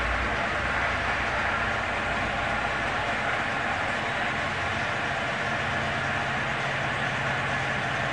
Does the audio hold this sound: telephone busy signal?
no